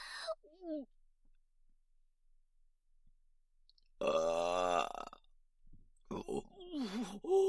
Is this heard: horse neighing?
no